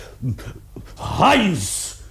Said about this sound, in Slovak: Prečo je pes na reťazi? Musel som ho uviazať, pane. Nedalo sa nič iné robiť. Stále sa vrhá na drôtený plod a driape ho.